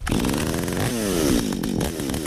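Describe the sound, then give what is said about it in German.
A chainsaw cuts firewood in a forest near Bonn, run by a hobby woodcutter: a loud, continuous buzzing engine whine with a wavering note throughout, with no voices. “Joachim Budde hat im Bonner Kottenforst einem Hobby-Waldwerker über die Säge geschaut.”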